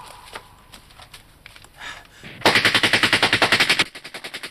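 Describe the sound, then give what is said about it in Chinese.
Machine-gun fire in a wartime battle against fascists: scattered softer noise gives way to a loud, rapid burst of evenly spaced shots, followed by a quieter string of repeated shots. “向法西斯分子开火。”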